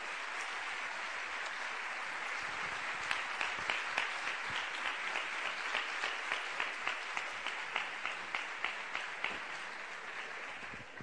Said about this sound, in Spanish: Venga ese pedazo de aplauso